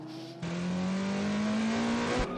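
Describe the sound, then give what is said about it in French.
A Genesis race car rejoins the circuit under green flag after running wide, its engine a loud, steady roar that cuts in abruptly and climbs slowly in pitch as it accelerates, then eases near the end. “Alors, qu'est-ce qui s'est passé pour la Genesis qui revient en piste, drapeau vert?”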